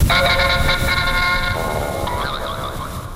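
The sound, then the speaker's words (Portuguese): Short jingle introducing a word-of-the-day segment, a few bright horn-like tones sounding together and then fading into a softer tail. “Palavra do dia, roda a vinheta!”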